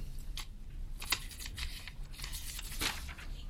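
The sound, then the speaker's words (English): Papers shuffled at the start of a board meeting: crisp rustling and crinkling, with a few sharper paper snaps standing out from a steady low hum, and no talking. “shuffle some papers here”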